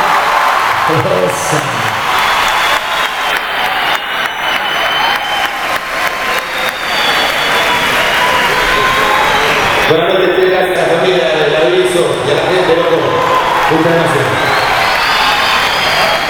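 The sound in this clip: A concert audience applauds and cheers, a dense, steady roar of clapping that holds at a loud, even level throughout, with whoops and voices rising over it at times.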